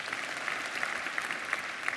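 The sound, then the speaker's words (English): Audience applause at a religious talk about spreading the gospel: dense, steady clapping from many hands that holds at an even, moderate level for the whole two seconds, with no voices standing out. “That, you can clap if you want to on that.”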